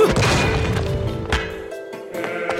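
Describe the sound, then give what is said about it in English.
A giant axe is picked up in the video game Bayonetta, heard as a few heavy, crashing whacks over sustained tonal game music, loudest at the start and fading slightly afterwards. “Oh, actually, we can. I'm gonna pick up the giant axe.”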